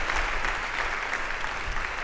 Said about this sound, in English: Please give an applause to the people of Holy Family for the extraordinary way.